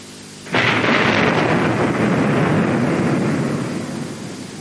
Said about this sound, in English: The Latin term for this is admiris porbolaris, which in common country parlance is known as thunder.